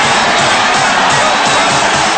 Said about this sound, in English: Panthers fans sure know how to cheer.